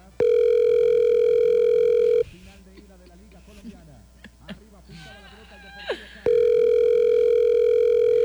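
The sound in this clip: An unanswered telephone call rings out as a steady ringback tone, with two long unbroken tones at the start and end and people talking in between.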